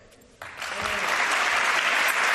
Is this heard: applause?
yes